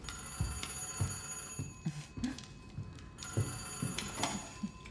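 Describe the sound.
A telephone bell rings in two long shrill bursts separated by a short pause. The tone is steady and bright, with faint low knocks and thumps underneath.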